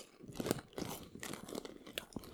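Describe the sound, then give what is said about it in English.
Crunching of a trellis-shaped round flavoured crisp being bitten and chewed, a few brittle, crackly bursts at a quiet level with no talk. “The flavouring has been intermingled amongst the snack lattices. Oh. It's a trellis shaped round crisp. And I'm about to taste it right now.”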